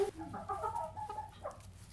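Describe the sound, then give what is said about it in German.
Chickens cluck softly while feeding in a henhouse on organic layer mash and scattered grain. A few short, throaty clucks sit over a steady low hum. “So, ja, und das war jetzt der Hühnerstall. Die Hühner sind hier fleißig am Fressen.”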